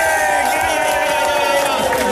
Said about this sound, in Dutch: Mag ik nog één keer een heel groot applaus voor Fons Verling.